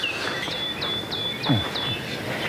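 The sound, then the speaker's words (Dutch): A coal tit calls in a deciduous forest: a series of high, thin, evenly spaced notes repeats at a steady rhythm, faint over a soft background hiss with a steady high tone. “Zwarte mees.”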